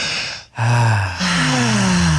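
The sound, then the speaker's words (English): A group takes a deep breath together: a quick inhale, then long, overlapping voiced exhales like low sighs. “Let's just all take a deep breath.”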